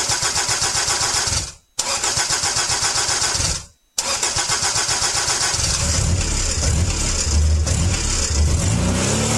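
A car engine is started with two rapid cranking attempts, each cut off by a brief pause. A third crank catches, and the engine settles into a loud, rough rumbling run.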